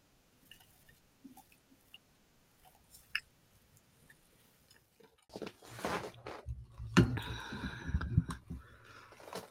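Person chewing trail mix with pecans: faint, scattered mouth clicks at first, then a stretch of louder, irregular crunching and squishy chewing in the second half, quiet overall.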